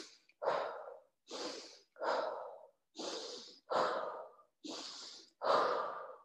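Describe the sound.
Forceful, intense breaths are pushed out through the mouth in an evenly paced series of seven strong, airy bursts, each separated by a short silence. The tail of one more breath is heard at the start.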